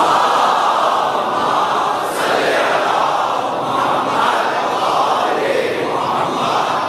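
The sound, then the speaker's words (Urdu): A crowd at a religious gathering loudly chants salawat together, a dense and continuous mass of voices that stays strong for the whole stretch. “تمام مریضوں کی شفا یابی کے لیے بآواز بلند نعرہ صلوات۔”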